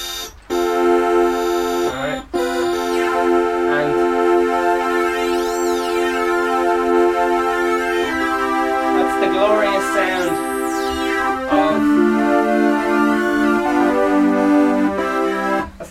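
A synthesizer oscillator hard-synced to a second oscillator produces a loud, continuous buzzy tone. Bright resonant peaks sweep up and down through it again and again, with a few brief dropouts.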